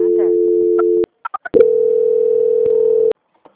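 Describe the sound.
Telephone call transfer tones: a steady tone, then three short beeps, then a longer steady tone that cuts off abruptly.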